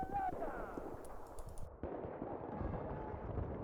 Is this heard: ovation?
no